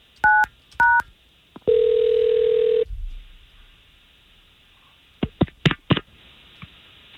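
Telephone keypad dialing a call: two short dual-tone beeps, then a steady tone about a second long, followed after a pause by a quick run of several sharp dialing beeps.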